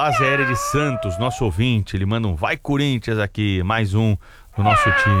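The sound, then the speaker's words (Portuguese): Cat meowing, offered as an on-air greeting to a listener, with a man talking steadily throughout; the wavering, tonal meows sit mostly beneath the speech. “Um miado para o sargento Adalberto”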